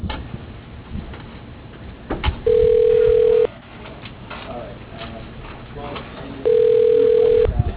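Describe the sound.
Telephone ringing tones play while a call is transferred: two long, steady, mid-pitched tones, each lasting about a second, separated by several seconds of noisy background on a phone line.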